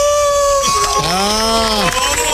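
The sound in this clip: A man imitates a wolf howl with his voice: a sustained, tonal vocal wail that holds fairly steady for about a second, then bends downward at the end, loud and alone.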